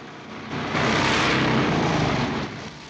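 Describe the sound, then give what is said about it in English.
Motorbikes and German vehicles drive up a dirt track. The engine drone swells after about half a second, holds as a loud rumbling roar, then eases near the end. “The motorbikes and genuine German vehicles turn off and ride up a dirt track.”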